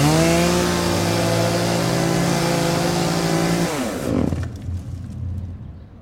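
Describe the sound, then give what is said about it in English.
A gas-powered 33 cc hedge trimmer engine revs at a high, steady whine. It then cuts off, and the pitch drops quickly as the motor winds down, leaving a quieter, rough idle-like rumble. “Trimming the hedge, huh? Yep. Me too. 22 inches. Electric. 33 cc's. Gas.”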